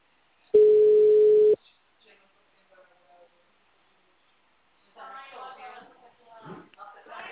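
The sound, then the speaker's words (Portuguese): A telephone tone after a dropped call: one steady, pure mid-pitched beep lasting about a second, then near silence, followed by a person talking. “caiu a ligação, você tá me ouvindo?”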